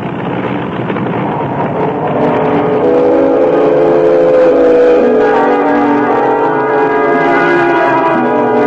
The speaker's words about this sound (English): The engine seems to have lost its harmony. Yes, the harmony is gone.